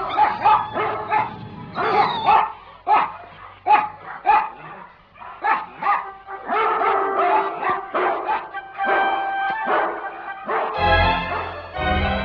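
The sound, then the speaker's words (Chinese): Dogs barking loudly: many sharp, repeated barks in irregular bursts, mixed with higher yips and whimpers, continuing for the whole stretch. “他们吠得很紧要，这狗真是有性的。”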